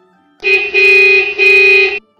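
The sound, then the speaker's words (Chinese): A car horn honking suddenly on a roadside: two loud, steady-pitched blasts back to back, with no other sounds around them. “突兀响起的喇叭声把男人吓了一跳”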